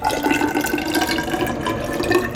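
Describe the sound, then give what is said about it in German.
Water pours as an unfiltered river water sample is filled into a glass measuring cylinder in a laboratory. A steady, moderately loud splashing and gurgling stream runs without pause. “Ich fülle dann jetzt 200 Milliliter von der unfiltrierten Probe in ein Glasgefäß ab. Dafür benutze ich einen Messzylinder.”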